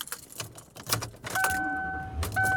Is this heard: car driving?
yes